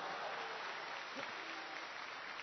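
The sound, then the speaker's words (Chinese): Faint, steady applause from an audience after a few sung lines of a stage performance, a soft continuous patter of clapping lasting a couple of seconds. “可以鼓掌了啊。”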